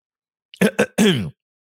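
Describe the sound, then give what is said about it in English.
A man clears his throat in three rough bursts, two short catches followed by one longer, louder guttural rasp, with no talking. “Excuse me. Something caught my throat.”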